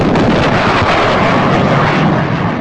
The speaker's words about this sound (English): That's a sound at least some of you have probably never heard before, at least in person. It's a sonic boom. The noise generated as an aircraft flies faster than the speed of sound.